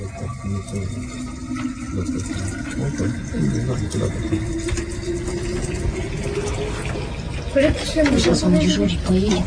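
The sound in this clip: Tea poured into a thermos, a steady stream whose tone rises gradually as the flask fills, over a constant low rumble with voices talking in the background.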